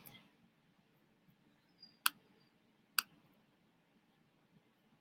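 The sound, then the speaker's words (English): Two crisp computer mouse clicks, about a second apart, made while choosing save in a program, sharp and isolated against near-silence. “So I'm going to click here. I'm going to go down to save.”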